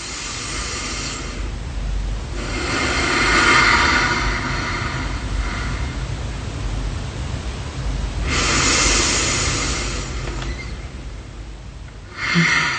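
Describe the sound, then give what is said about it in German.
Slow belly breathing, drawing in for a count of four and out for six: long, broad, airy rushes of breath rise and fall across several seconds, with quieter gaps between them. The breaths are fairly loud and heard alone. “Und du zählst innerlich bis 4, die Luft in den Bauch. Und beim Ausatmen langsam bis 6, also ungefähr so.”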